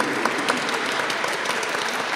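Audience applause for a choir after a weekend of performances: dense, steady clapping that fills the whole stretch at an even level, with no voices standing out.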